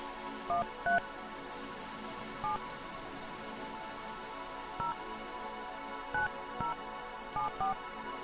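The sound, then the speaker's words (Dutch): Telephone keypad tones as a number is dialed: eight short beeps at irregular intervals over a steady hiss, with no voices. “we gaan weer eens even iemand bellen in het item Hoe gaat het met?”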